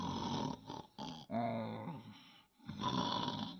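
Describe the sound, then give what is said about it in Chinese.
A voice imitates snoring for a pig demon sprawled asleep in a straw pile in a cave: a few rough, grunting, drawn-out snorts and groans at moderate loudness, separated by short gaps. “直接的往这草堆里这么一扎，在那里啊就打起呼噜来”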